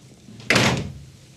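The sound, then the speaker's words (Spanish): A door being closed: one dull, solid thud with a brief rattle as it shuts, standing alone against a quiet background hum. “cierra la puerta”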